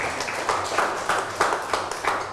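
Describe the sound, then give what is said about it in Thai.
Clapping for a classmate in a class session: steady, rhythmic hand claps in regular bursts, many in quick succession at a moderate level. “เอาไปถวายสังฆทานได้เอาปรบมือให้เพื่อนหน่อย”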